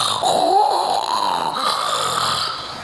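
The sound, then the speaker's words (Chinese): A storyteller's voice imitates the snoring of an emperor asleep at his desk during court: a single long, rasping, drawn-out snore lasting nearly three seconds, loud and alone. “大伙儿想，这谁呀？又打上呼噜了。”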